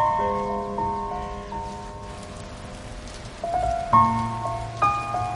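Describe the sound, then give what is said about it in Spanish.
Heavy rain falling on a village: a steady hiss of rain runs beneath sustained melodic notes, and a few new notes enter with louder swells near the end. “Llueve con intensidad sobre la aldea.”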